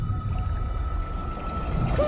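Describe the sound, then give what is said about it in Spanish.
A whale call from an animated film: a steady, held tone sits above a continuous low rumbling wash, and a brief bending whistle swoops in at the end. “Es algo que no había oído. ¿Y qué tal si está hambrienta, eh? Tranquilo, las ballenas no comen peces payaso, comen krill.”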